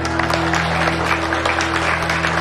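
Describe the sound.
Applause at a dance with a band on a small stage: a dense, steady patter of clapping that continues unbroken over a sustained low tonal hum.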